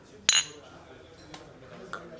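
Beer glasses clinking in a toast over Kölsch: one bright, loud clink, then two fainter clinks spaced apart.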